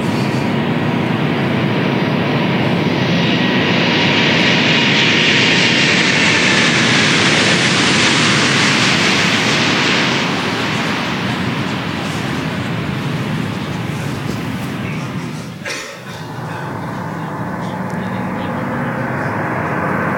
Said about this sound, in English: When this airplane comes by, sometimes the wing vortices that they take off actually knock them to the ground.